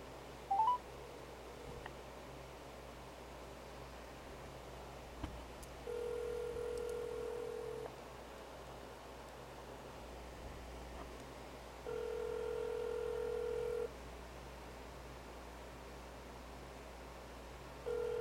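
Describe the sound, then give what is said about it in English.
Telephone ringing heard over a speakerphone: a few long, steady electronic tones, each about two seconds, separated by quieter pauses, over a low constant hum and faint background noise. “Let's call them now. And we'll put it on speaker.”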